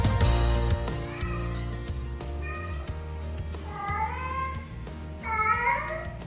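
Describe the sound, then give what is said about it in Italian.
A cat meows at home, disturbing someone's rest, with a few drawn-out meows whose pitch bends and wavers. The meows rise over a steady low hum that continues underneath. “Questo è il miagolio del gatto che disturba il riposo del nostro Carmelo Lauricella”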